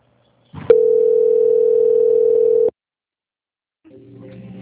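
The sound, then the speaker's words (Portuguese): Telephone line tone during a bank call being transferred: a single loud, steady, level tone lasting about two seconds, then silence before a fainter, different sound begins near the end. “Só aguarde em linha, por favor, que eu vou transferir a sua ligação”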